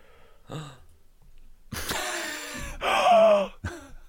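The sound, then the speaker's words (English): A sharp intake of breath: a loud, rasping gasp that runs into a short voiced, groan-like exhale, with a fainter breathy sound before it and a brief burst after. “Was a sharp intake of breath necessary”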